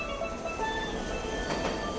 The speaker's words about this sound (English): A different day, we see him on the subway platform with other people.